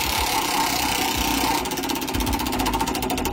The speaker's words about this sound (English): We have a bunch of Bruno songs on our big old wheel here. I'm going to spin it.